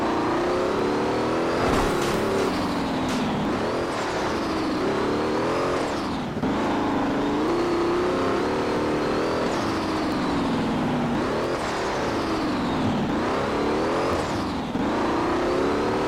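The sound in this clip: A car engine drives on continuously, loud and steady, its pitch rising and falling several times as it revs up and eases off.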